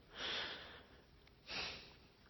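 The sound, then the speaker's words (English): A man exhaling: two soft, breathy exhales, the first longer and the second shorter, faint and airy, with quiet near-silence between them and no talk. “You hear Jesus exhale.”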